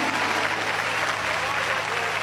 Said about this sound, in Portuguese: Essa igreja dá uma salva de palmas ou não dá? Dá! Para Jesus, aleluia!